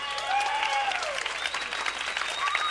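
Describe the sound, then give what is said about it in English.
Enthusiastic audience applause for a band at a live show, dense steady clapping that holds at an even level throughout. “give this band one heck of a hand”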